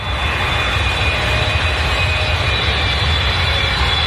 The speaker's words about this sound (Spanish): El avión despegó en hora.